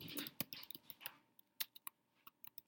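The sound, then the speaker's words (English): Typing on a computer keyboard: a dense, quick flurry of light clicking keystrokes at first, thinning out to sparser, irregular taps, with no voices over it. “hold on. I gotta type something.”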